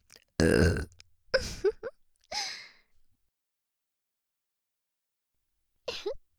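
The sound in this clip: Burping in a binaural recording: a long, loud belch is followed by a few shorter burps and breathy throat sounds. After a pause of several seconds, one brief burp comes near the end.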